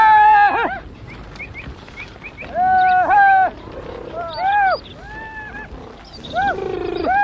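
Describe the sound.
A herd of livestock calls out in several loud bursts of wavering, bleating cries, some overlapping, with quieter calls in between.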